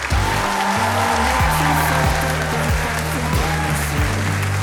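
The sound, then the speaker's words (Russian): Audience applause on a talk show: dense, steady clapping that holds at an even level throughout, mixed with loud music carrying a stepped bass line, with no speech. “Давайте похлопаем этому прекрасному юноше.”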